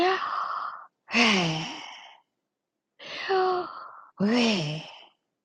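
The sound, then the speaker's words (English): Breathing in and out, demonstrated aloud: four strong, voiced, breathy rushes in two pairs, each with a sliding sigh-like tone, separated by short silent pauses. “for people to breathe in the breath of Yahweh, going in and out like this.”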